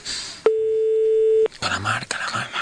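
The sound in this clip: A single steady ringback tone sounds on a telephone line as a call rings out, holding for about a second before cutting off. Noisy talk follows on the line.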